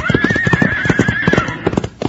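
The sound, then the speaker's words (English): A spooked horse neighs in a long, wavering whinny over steady clip-clopping hoofbeats. The whinny fades after about a second and a half while the hooves carry on. “He's got that horse so spooked up it doesn't know what it's doing.”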